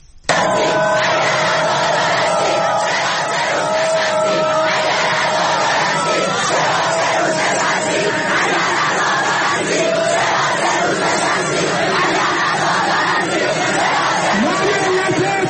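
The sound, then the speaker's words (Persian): Protesting students chant slogans together at Shahid Beheshti University. The dense, loud crowd chanting continues without a break, with layered shouts and voices sustained at the same level throughout. “این شعارها که میگه اگر عزادار هستید چرا سه روز نشستید، صدای دانشجویان معترض دانشگاه بهشتی بود”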